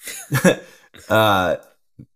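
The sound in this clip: Throat clearing from a dry throat: a few rough, rasping bursts followed by a longer voiced, humming push, then one brief faint sound after a short pause.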